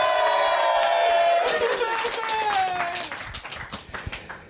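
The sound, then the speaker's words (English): A live lounge room audience breaks into an ovation at a recording. Loud applause mixes with cheering and whoops, then thins out into scattered claps. “What an ovation.”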